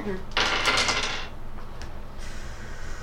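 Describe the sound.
Dice rattle as they are rolled from a dice pool for a tabletop role-playing game: a short, bright clattering burst that fades into quieter background noise.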